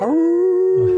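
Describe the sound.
A wolf howl: one loud, sustained tonal cry that rises quickly at the start and then holds a steady pitch, with a low rumble near the end.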